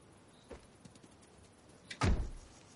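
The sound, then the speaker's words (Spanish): A car's rear door opens as a dog gets out: a few faint clicks, then a single louder thud, all quiet overall. “Abre la puerta trasera y el can baja del coche.”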